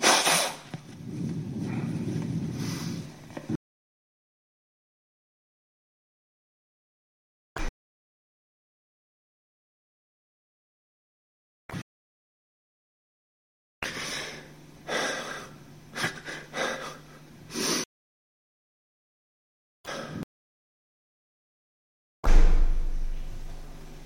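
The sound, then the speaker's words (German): Someone blows their nose in several bursts of breathy, rushing air noise separated by long silences, with one longer blow at the start and shorter ones later. “Ich muss mir erstmal die Nase putzen. I have to clean my nose at first.”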